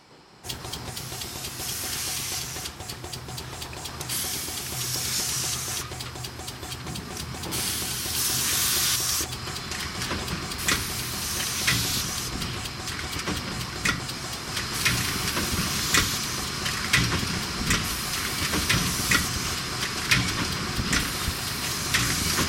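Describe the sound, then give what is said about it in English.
Beer bottling machinery with air pumps and centrifuges running, a steady loud hiss of air over dense rhythmic mechanical clatter, continuous throughout with bursts of brighter hissing. “Now comes the machinery used to bottle, box, and test the beer, including air pumps and centrifuges.”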